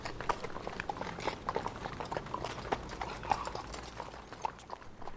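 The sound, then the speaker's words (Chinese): Hooves of a horse pulling a carriage clip-clop steadily along busy Route 30 amid fast traffic, the rhythmic hoofbeats sitting faintly over a continuous broad rushing background. “甚至在那辆车拥挤的第30号公路上，他们的马车照样是一样子的那行驶，完全也不管周围的车开的有多快。”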